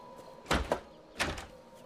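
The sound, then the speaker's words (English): Two brief rattling clunks as someone tries a door handle, the first double-pulsed and the second slightly softer, both faint against a quiet background. “Cameron turns toward the door. She tries the handle.”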